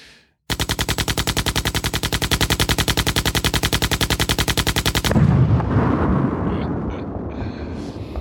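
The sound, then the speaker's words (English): Machine gun fire used as a drum roll sound effect: a fast, even burst of shots lasts about four and a half seconds, then breaks into a louder, noisy blast that slowly fades. “the classic Concealed Carry podcast machine gun drum roll.”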